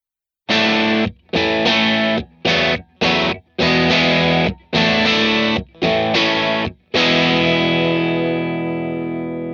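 A distorted electric guitar is recorded with a ribbon microphone. It plays a series of loud, abruptly cut chords in an uneven rhythm, then one final chord is left to ring and slowly fade, with no other sound.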